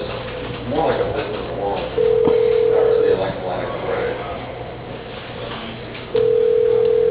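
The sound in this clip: Telephone ringback on a line while a call is transferred to a receptionist: two steady ring tones, each about a second long, with quieter muffled voices and noise around them.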